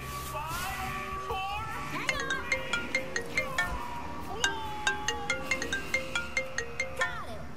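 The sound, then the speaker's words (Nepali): A mobile phone ringtone for a call at night plays a quick melodic pattern. Many rapid, evenly spaced bright pulses repeat steadily over a quiet, low background. “यति राति कसले phone गर्छ हजुरलाई?”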